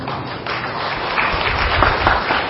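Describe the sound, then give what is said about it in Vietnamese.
Audience applause during a Buddhist dharma talk: a dense, steady wash of clapping that swells slightly louder toward the end, with no voice over it. “Vỗ tay là được hay không?”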